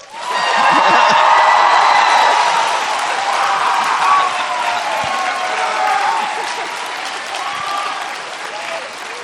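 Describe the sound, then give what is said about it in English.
An audience applauds, cheers and whoops to welcome a guest at a student life event, the clapping loud and steady throughout with scattered shouts. “So can we give her a rock star welcome?”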